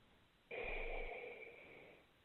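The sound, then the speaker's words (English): A single deep breath in during a guided breathing exercise: one long, airy rush that starts abruptly, lasts about a second and a half, then fades gradually, with no talk. “Take another deep breath with me. One more breath in.”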